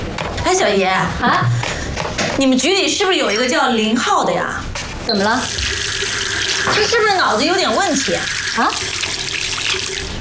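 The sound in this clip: Water runs from a tap as hands are washed, a steady splashing hiss heard beneath people talking throughout.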